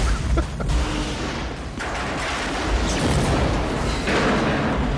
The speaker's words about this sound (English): He's running from the explosion he's in?